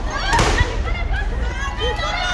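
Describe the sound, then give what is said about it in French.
Tear gas grenades fired by police at a student protest: a sharp pop and burst over a dense, continuous wash of crowd noise and commotion. “Qui, pour répliquer, tirent des grenades lacrymogènes.”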